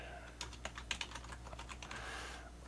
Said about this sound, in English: In fact, let me actually type in remember link.